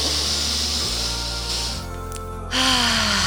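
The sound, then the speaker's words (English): A slow, deep breath drawn in through the nose during a guided meditation gives a long, airy hiss over soft, steady background tones, then fades away. “One last deep breath in through the nose,”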